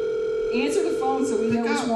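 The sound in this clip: A steady telephone tone, held without a break while a call is placed, with talking voices going on over it the whole time.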